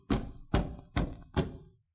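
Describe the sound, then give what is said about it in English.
Heavy pounding on a door: four deep, loud thuds in about two seconds, evenly spaced and each dying away quickly, with no other sound around them. “There was a terrible pounding on the door.”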